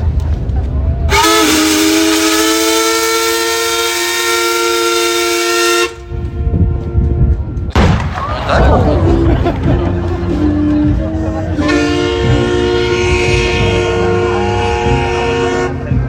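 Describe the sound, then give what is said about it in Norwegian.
Steam-whistle salute from the steamer Skibladner on her 170th birthday: a long, loud, harmonic whistle blast lasting about five seconds, a short gap, then rumbling noise and a second long, sustained whistle tone. “Vi vil straks fyre av en salut til ære for Skibladner som fyller 170 år I dag.”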